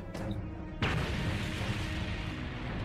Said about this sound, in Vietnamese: Tiếng nổ vang trời dậy đất truyền ra khắp nơi, khiến vô số ánh mắt đổ dồn về.